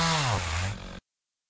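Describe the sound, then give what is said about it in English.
A chainsaw engine buzzes loudly in the woods of Casimir Pulaski State Park, Rhode Island. Its high, harsh whine dips in pitch, settles at a lower drone, then cuts off abruptly after about a second. “Hey, what are you doing? Put that chainsaw down!”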